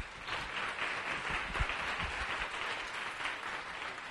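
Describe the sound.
Applause from an audience welcoming a speaker to the stage, a steady wash of many hands clapping at an even level, with a few low thumps mixed in around the middle.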